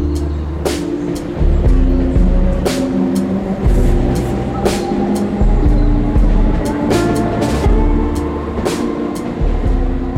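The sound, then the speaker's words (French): Ambience at the Saint-Cloud train station: a continuous low rumble with scattered sharp clicks and clacks throughout, moderately loud and without pauses. “Nous sommes ici avec vous à la gare de Saint-Cloud”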